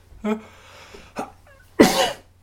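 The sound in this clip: A person coughs: three harsh, breathy bursts, the last one loudest and longest, with no other sounds around them.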